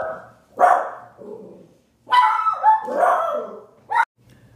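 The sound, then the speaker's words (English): A dog barks at someone coming to the door, giving a few loud, sharp barks with whining, tonal yelps and whimpers between them, alone without talk. “Sorry for that dog barking interruption, which was my dog.”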